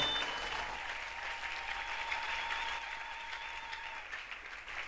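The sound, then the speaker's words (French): Applause from a church audience, steady and dense clapping that holds at an even loudness for about five seconds with no voices breaking through. “Est-ce qu'on peut encore une fois acclamer notre Dieu?”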